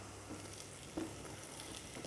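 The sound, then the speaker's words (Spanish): Potatoes sizzle softly in hot oil while cooking for a lentil stew, a steady, faint crackling hiss with no talk. “Vamos a añadir las patatas”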